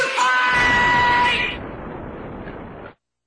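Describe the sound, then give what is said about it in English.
A man yells loudly in a strained, bellowing outburst lasting over a second, then the sound drops to a quieter, noisy tail before cutting off. “Two guys who get a little emotional when they hear John Belushi yell,”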